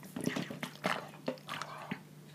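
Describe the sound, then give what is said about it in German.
A person drinks a beverage during a short break in conversation, with several quick wet gulps and mouth clicks at an irregular rhythm, fairly faint and heard alone. “Ich möchte ganz kurz unterbrechen für eine kleine Trinkpause, denn ich merke, ich höre mich durch meine Ohren. Kennt ihr das, wenn so Druckausgleich fällig ist? Und ich glaube, ich muss einfach viel mehr trinken. Also holt euch alle euer Getränk. Wir trinken jetzt.”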